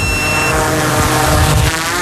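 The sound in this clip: A drone taking off for a fawn-rescue search over fields gives a loud, steady buzzing whine with dense layered motor harmonics, sustained without pause throughout.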